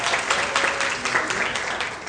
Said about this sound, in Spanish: ¡Un aplauso para los invitados!